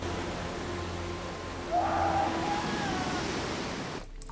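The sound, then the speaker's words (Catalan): Sea waves break and wash onto a beach in a steady, loud rush of surf, swelling briefly partway through, with no voices. “A la platja, Luke clava coces a les onades de cara al mar, ple de ràbia i d'impotència.”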